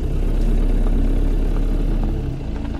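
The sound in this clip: A jeep engine reversing along a narrow road gives a loud, steady low rumble with no voices, easing slightly toward the end.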